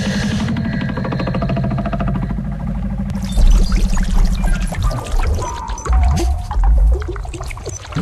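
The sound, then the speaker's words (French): Water pours and gushes into a sinking boat: a steady churning flow with a droning hum beneath at first, then louder surging splashes and gurgles in uneven waves, with no voices. “On coule, docteur! On est en train de couler, ça se voit pas!”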